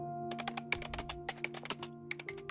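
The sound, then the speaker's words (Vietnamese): Someone types on a computer keyboard in a damp, musty room, writing word by word. Many quick, uneven keystrokes come in faint bursts over a steady low electrical hum. “Quỳnh Lan vẫn đang cố gắng ngồi gõ từng con chữ”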